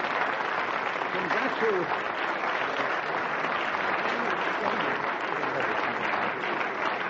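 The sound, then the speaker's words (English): Audience applause for a show: a sustained, dense and loud wash of clapping that stays steady, with no pauses, for about seven seconds. “you can stop clapping now, actually”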